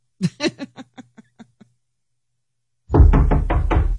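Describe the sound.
Knocking on a door: a quick run of hollow raps that gets softer and speeds up before stopping, followed after a short silence by people laughing and talking.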